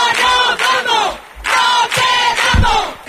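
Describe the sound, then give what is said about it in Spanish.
A housing demonstration crowd in Cádiz chants protest slogans in loud, rhythmic bursts of many voices shouting together, with brief pauses between the phrases. “Estos son algunos de los cánticos que se escucharon ayer aquí en Cádiz.”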